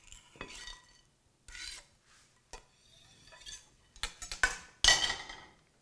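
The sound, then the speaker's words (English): Green onions going into a hot pan for matzo brei, with scattered clattering knocks and scrapes of a utensil on the pan and a short louder burst near the end. “So green onions in.”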